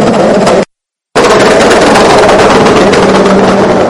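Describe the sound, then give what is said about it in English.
Pneumatic air guns rattle as a team changes racing car tyres during a pit stop. The loud, dense mechanical clatter stops for a brief moment of silence and then resumes at full strength. “the team very much going to work doing the tyres. You can hear the air guns in the background.”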